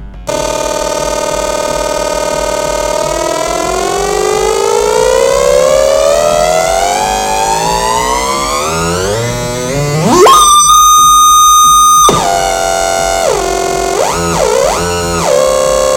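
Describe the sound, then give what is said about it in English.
A homemade EM Synth oscillator plays through its stereo out module for the first time, very loud. A siren-like tone climbs steadily in pitch, breaks into a harsh, buzzing stretch, then swoops up and down in wavering bends. “a stereo out module that works perfectly, just like the oscillator. So 2 out of 3 ain't bad. It's more like 2.5 out of 3. And we're gonna hear it right now. Get ready for something really, really, really, really, really loud.”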